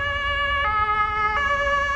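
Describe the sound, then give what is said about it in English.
An emergency siren sounds across eastern Germany during flooding, a loud, steady harmonic tone holding one pitch with a low rumble beneath. “All across parts of eastern Germany, sirens wailed today.”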